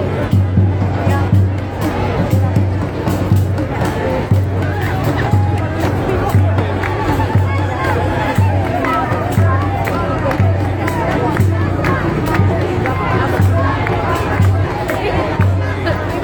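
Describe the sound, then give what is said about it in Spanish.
A crowd at a large march in support of Palestine for Gaza makes a continuous murmur of babble and chatter, with a voice talking over the steady hubbub. “donde seguirá uniéndose más gente a esta marcha multitudinaria en apoyo a Palestina.”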